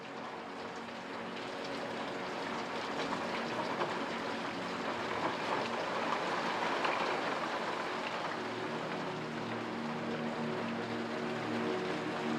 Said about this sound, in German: Während ihr weiterarbeitet, bleibt der Regen draußen unermüdlich, aber sanft. Sein Klang ist nicht mehr nur ein Geräusch.